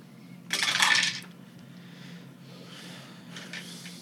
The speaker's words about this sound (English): That's a lot of dice. That's a lot of dice.